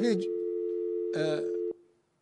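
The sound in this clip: A telephone line tone sounds after a call disconnects. A steady, faint, low hum holds for under two seconds and then cuts off abruptly, with brief bits of voice over it.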